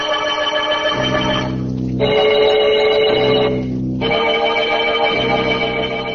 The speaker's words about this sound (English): a man lies in a bed in a padded cell and hears the bells ringing, ringing, every hour on the hour